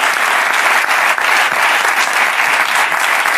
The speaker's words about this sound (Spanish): Un aplauso para esta gente, joder, gracias por venir los dos